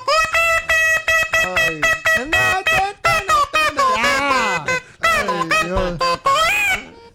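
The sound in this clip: Car horn honking many tonal blasts in a tune-like run whose pitch keeps changing, with people talking between and over the blasts.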